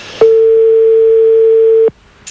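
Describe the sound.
A telephone ringing on the line during a late-night call: one steady, loud, mid-pitched tone that holds for under two seconds and then cuts off.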